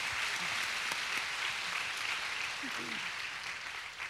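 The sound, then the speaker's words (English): Audience applause for a guest at a women's night panel event, a steady, fairly faint patter of many hands clapping from start to finish, with a few voices faintly audible beneath. “Give Miss Paula a hand.”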